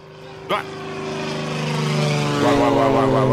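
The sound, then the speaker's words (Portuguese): Airplane landing, heard as a steady propeller-engine drone with clear humming tones that grows gradually louder throughout. A brief knock comes early on. “Vai, quem tá vindo aqui participar do programa aqui pelo avião? Aterrissou.”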